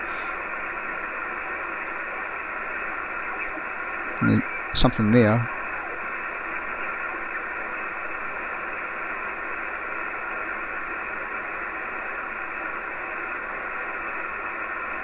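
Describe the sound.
Steady hiss of static from a Kenwood TS940S radio as it is tuned down the 7 MHz band, even and unbroken throughout, with a brief snatch of speech partway through.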